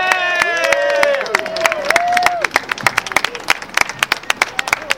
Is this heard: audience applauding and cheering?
yes